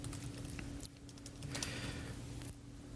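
Faint typing on a computer keyboard in a Linux terminal, a few light, scattered key clicks over a quiet background hum.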